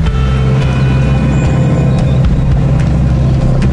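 An off-road car with terrain response and disconnecting anti-roll bars crawls over a cross-axling hump, its engine a loud, constant low rumble with faint higher whines and clicks on top.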